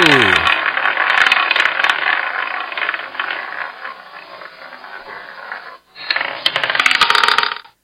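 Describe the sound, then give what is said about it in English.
A roulette wheel spins with a rolling marble, giving a loud, continuous rattling whir that slowly softens. It stops briefly near the end, then returns in a second rattling burst, after a short voice at the very start. “I'll spin the wheel and roll the marble.”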